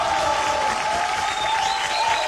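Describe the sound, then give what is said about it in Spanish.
Applause from a studio audience on a live weekend radio show, a dense, steady wash of clapping with some crowd noise that holds at an even loudness throughout. “Este aplauso es para ustedes.”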